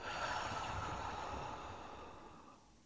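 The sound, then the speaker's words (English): A deep breath drawn in through the nose and let out through the mouth makes one long, soft, airy rush, steady at first and then thinning away at the end, with no talking. “Let's take a breath in through the nose and let it out the mouth.”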